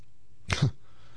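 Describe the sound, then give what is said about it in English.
One short sneeze bursts out sharp and breathy with a brief low after-sound, fairly faint against an otherwise quiet background. “It's brought on a sneeze there out of nowhere.”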